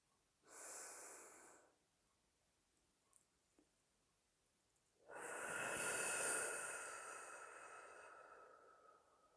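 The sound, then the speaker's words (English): A slow, deep breath during a guided breathing exercise. A shorter soft breath sound comes first, then a quiet pause, then a long, airy breath that tapers off gradually. “We will take our first breath now.”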